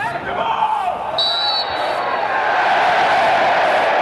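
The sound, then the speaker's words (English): A football crowd cheers at Brighton's Amex Stadium as fans return for a friendly against Chelsea after the coronavirus pandemic, a loud, dense and unbroken roar that holds steady throughout. “A sound not heard in English football stadiums since the coronavirus pandemic began. Brighton welcomed back fans at the Amex Stadium for a friendly against Chelsea, which ended in a 1-1 draw.”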